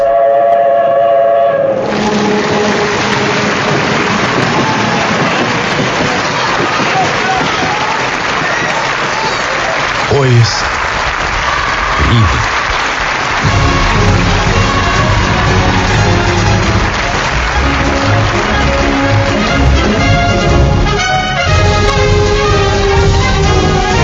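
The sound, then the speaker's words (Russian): A train arrives at a station with a loud, steady rumble and clatter throughout, and a few sharper knocks partway through. “В полдень поезд, везущий товарища Брежнева, наконец прибыл.”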